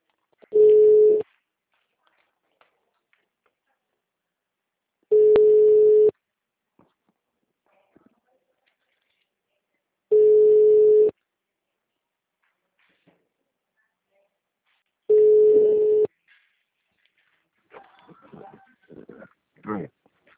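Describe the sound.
Telephone ringback tone as a bank sales consultant places an outbound call: four steady, even beeps, each about a second long and evenly spaced. A voice then begins speaking at the end.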